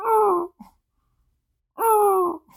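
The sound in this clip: A man imitates a little dog's noise with two drawn-out, whiny groaning yelps, separated by a short silent pause.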